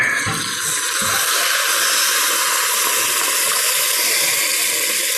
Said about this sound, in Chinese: 还是加入开水。